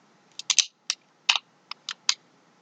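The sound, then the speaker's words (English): A buckle clicking into place: a quick, irregular series of several crisp, bright snaps and ticks, faint and heard alone. “You really hear the buckle click into place”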